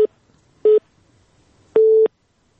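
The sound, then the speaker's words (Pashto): A telephone busy signal after a call is cut off: three steady mid-pitched tone bursts separated by near silence. The first is clipped at the start and the last is the longest. “بلی تلیفون لکه چې قطع شو”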